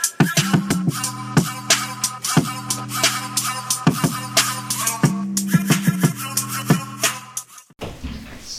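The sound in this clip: A programmed drum beat with punchy kick drum hits and a deep, sustained 808 bass line. Sharp percussive hits repeat in a steady rhythm over the held low notes, then the beat cuts off just before the end.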